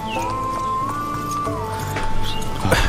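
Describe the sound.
Horse hooves clip-clop in a steady rhythm beneath a sustained high whistling tone, with a few sharper hoofbeats standing out near the end.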